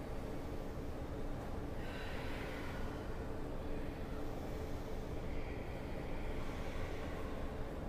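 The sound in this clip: Slow, airy breathing during a yoga session, a couple of soft breaths rising out of a steady low background hiss, faint and without speech.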